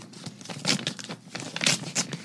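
A paper envelope is picked up and opened, with a few crisp bursts of crinkling and tearing paper over a low background hum.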